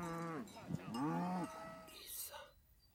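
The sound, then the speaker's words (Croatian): Cows lowing in a few drawn-out, fairly loud moos with bending pitch, followed by quieter, rougher noise as the calls trail off. “Krava! Mu! Mu! Mu! Iz magle izlazi.”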